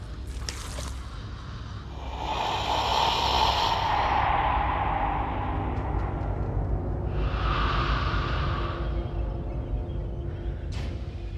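Slow, breathy exhales voiced by a person imitating an alien creature: two long, airy hisses with a soft rasp, heard alone without words.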